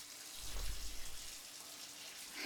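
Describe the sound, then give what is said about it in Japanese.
Hot water running from a shower, a soft, steady hiss of flowing spray that swells briefly early on and then continues evenly. “お湯出すから暑かったら行ってね。”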